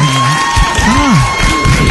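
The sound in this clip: Cheering and whooping from a live studio audience at a talk show interview, a busy crowd roar with rising and falling whoop-like shouts, loud and continuous throughout.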